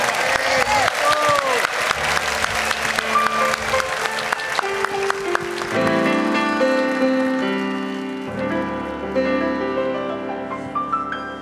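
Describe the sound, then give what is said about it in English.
Audience applause welcoming a musician on a music show: dense, loud clapping for roughly six seconds, then piano-like tones enter as the clapping thins and fades beneath them. “If you would, a warm welcome.”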